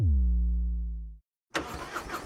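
Harley-Davidson motorcycle engine starting: a low droning tone sinks in pitch and fades out, a short silence follows, then the engine catches with a loud, rough rumble.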